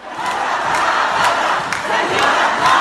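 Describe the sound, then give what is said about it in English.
A crowd at a Christmas concert in a university concert hall in Beirut chanting "Revolution, revolution": loud, massed voices in a steady, rhythmic pulse that continues without a break. “Dozens of people in the audience started taunting the former leader, chanting, "Revolution, revolution."”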